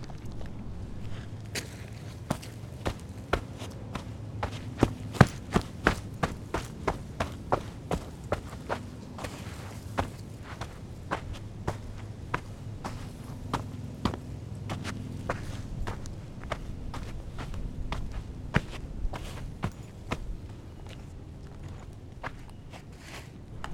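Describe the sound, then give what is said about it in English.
Footsteps walk over loose dirt. There are many crunchy, gritty steps in a steady, unhurried rhythm, moderately loud and heard alone against quiet surroundings. “All right, let's come over to some looser dirt.”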